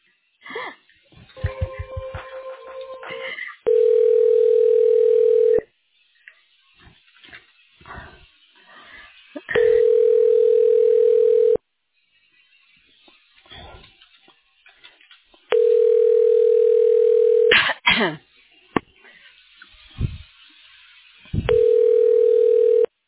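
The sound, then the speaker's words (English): Telephone ringback tone on a line while a call is transferred to voicemail: four long, steady buzzing tones of about two seconds each, evenly spaced, with faint clicks and line noise in the gaps between them. “I'm just going to go ahead and transfer you back over, and it'll go to voicemail, okay?”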